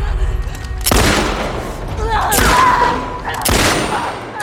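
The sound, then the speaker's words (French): Three loud revolver gunshots ring out in a video game, each a sharp blast with a booming, decaying tail, spaced roughly a second apart. “Allez, soyons dingues, celle-ci, je vais l'achever au flingue.”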